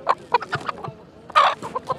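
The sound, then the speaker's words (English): Chickens clucking at a fence where a local man is selling a few birds: many short, clipped clucks come in irregular bursts, with a louder, busier cluster partway through. “One enterprising local guy is selling a few chickens to the people inside to supplement their rations.”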